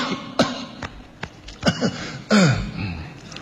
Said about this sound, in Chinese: 假装咳嗽，哦、过渡一下。